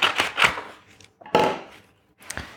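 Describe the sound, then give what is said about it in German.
Blade cutting open a paper page of an advent calendar, a few crisp, scratchy slicing strokes in short bursts separated by brief pauses, with no talk over them. “deswegen schneide ich jetzt die entsprechende Seite auf”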